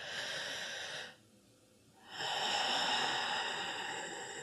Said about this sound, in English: Try it with me right now. Just take a nice deep breath.